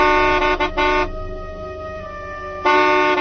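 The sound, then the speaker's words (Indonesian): A car horn honks repeatedly at a car that will not move while waiting at a traffic light. Loud, steady blaring tones come in a few bursts, with a quieter held tone between them. “Aku klakson-klakson, mobil itu tetap tidak mau bergerak.”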